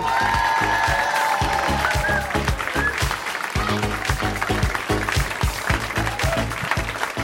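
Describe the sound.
Loud, sustained applause and cheering from a comedy audience as a comedian takes the stage, with a voice calling out over the clapping early on.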